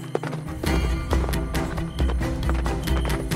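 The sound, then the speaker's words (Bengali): Horse hooves clip-clopping on a road as a radio drama sound effect, coming up behind: a loud, fast, steady run of many hoof beats, heard alone. “এমন সময় তাদের পিছনে শব্দ উঠল ঘোড়ার খুরের”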